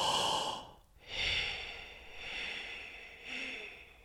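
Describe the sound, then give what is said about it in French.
Audible slow breathing during a guided breathing exercise, each breath drawn as an airy rush of varying length, with a few separated breaths and brief pauses between them, heard alone and fairly faint. “donc là j'ai fait un temps d'inspire, trois temps d'expire, puis après on va faire l'inverse”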